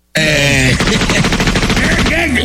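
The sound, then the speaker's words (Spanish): Gunshots ring out in a rapid, loud, continuous burst of automatic fire lasting about two seconds. “¿Por qué estás tirando balazos?”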